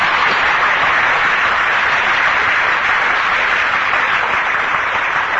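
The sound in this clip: Audience applause at a Buddhist monk's dharma talk: a dense, even wash of clapping that holds steady in loudness from start to finish, with no voices heard.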